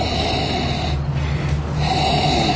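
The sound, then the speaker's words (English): Sharp sniffing inhalations through the nose held down in a wine glass, breathy and hissy, repeating over a steady noisy bed with no talk. “get your nose down into the wine glass. I mean, let's be serious about it. Let's get right down in there, and I want you to inhale several times, very sharp inhalations.”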